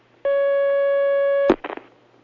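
A telephone line tone rings on an incoming call-in line. It is a single steady mid-pitched tone with bright overtones, lasting just over a second. It cuts off into a sharp click and brief rustling.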